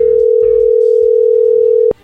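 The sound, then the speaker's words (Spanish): A telephone dial tone sounds while a call is being placed: one loud, steady, unbroken tone that cuts off abruptly with a click near the end, followed by near silence. “Bueno, Gulmaro, pues vamos a marcarle a Susi”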